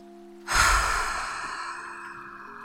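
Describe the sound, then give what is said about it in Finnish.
A deep breath let out through the mouth: one long, breathy exhale that starts abruptly and fades slowly, over a soft, steady background drone. “Otetaan vielä viimeinen puhdistava hengenveto yhdessä. Eli sieraimista sisään. Ja suusta ulos.”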